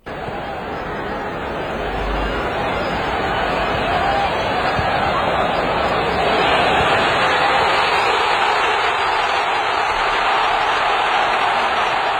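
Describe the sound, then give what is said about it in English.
Tens of thousands of people in a stadium roaring as Team Canada scores in extra time: a broad, continuous wash of crowd noise that swells gradually and holds at a sustained peak. “That's the sound of tens of thousands of people at the stadium with Team Canada scoring that goal in extra time.”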